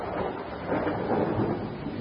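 Rain and thunder outside: a dense, continuous wash of noise that holds steady, with gentle swells in level and no voices.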